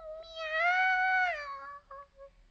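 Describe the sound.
A kitten meows plaintively for food: one long, drawn-out meow that swells and then fades, followed by a few faint, short sounds.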